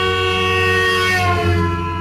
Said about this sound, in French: Mais si la voiture roule vite et passe devant nous en klaxonnant, alors là, les vibrations et les ondes n'arrivent plus du tout de la même manière à nos oreilles.